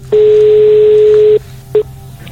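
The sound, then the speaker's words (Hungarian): A telephone ringing tone on an outgoing call: a loud, steady, mid-pitched beep holds for just over a second. After a short pause comes a brief clipped beep, all over faint background hiss. “Csörök valakinél a telefon, remélem, hogy elérem.”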